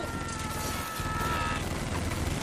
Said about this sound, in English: Automatic rifles. Who in God's name has automatic rifles?